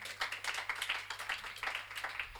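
An audience at a jazz quartet concert applauds a drummer, a fairly faint patter of many quick, uneven claps.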